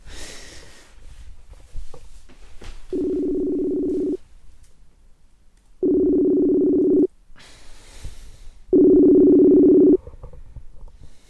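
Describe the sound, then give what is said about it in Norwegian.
A Messenger video call rings out with three identical low, steady tone bursts, each lasting about a second, separated by longer pauses filled with faint background noise. “Da skal jeg ta og ringe han Bilal her, skal vi se. Kanskje med video på Messenger.”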